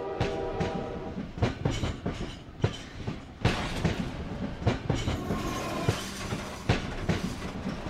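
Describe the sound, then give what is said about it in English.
Train wheels clatter over railway tracks in a film scene, a loud, rhythmic clickety-clack of many sharp metallic hits repeating steadily under a rolling rumble. “Selma's imagination turns the mundane sounds of the train tracks into a Hollywood musical number.”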